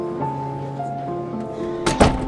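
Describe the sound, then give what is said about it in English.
A room door is shut by someone stepping out onto a second-floor balcony, giving a sharp thud near the end with a second knock just after, over soft sustained tones. “steps out of their room and shuts the door behind her.”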